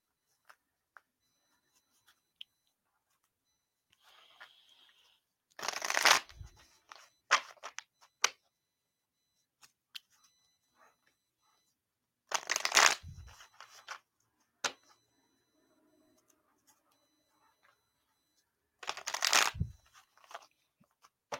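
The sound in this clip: A deck of cards shuffled to draw a card: three brief riffling bursts separated by long quiet stretches, with soft taps and rustles of card handling in between, faint overall.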